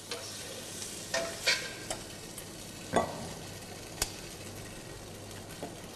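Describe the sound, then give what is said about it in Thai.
Shrimp sizzle steadily as they are stir-fried in a pan, with several sharp spatula scrapes and clinks cutting through the constant hiss. “เมื่อกุ้งสุกได้ที่ทุกอย่างเข้ากันดีเราจะตักขึ้นพักไว้ก่อนนะฮะ”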